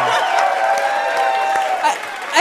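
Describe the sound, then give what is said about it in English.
A studio audience applauds and cheers on a game show, a broad wash of clapping mixed with whoops and voices. It stays steady throughout and dips slightly near the end. “I've never gotten so much applause for doing so little.”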